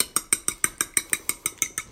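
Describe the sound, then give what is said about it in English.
Quick, even clinking of a utensil whisking two large eggs in a small bowl: a rapid, steady run of bright taps at a regular beat, with no voices. “I've got 2 large eggs in a small bowl, and I'm just going to give those a quick whisk so they're mixed together.”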